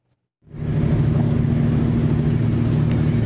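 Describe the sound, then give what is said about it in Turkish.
Steady low engine drone of a Bahama-flagged, 215-metre-long, 49-metre-wide pipe-laying ship passing through the Istanbul Bosphorus, bound from Italy to Romania. The rumble rises from silence within half a second and then holds even and continuous. “İstanbul Boğazı'nda sabah saatlerinde dev bir misafir vardı. İtalya'dan Romanya'ya giden 215 metrelik boru döşeme gemisinin geçişi sebebiyle boğaz hattı çift yönlü trafiğe kapatıldı.”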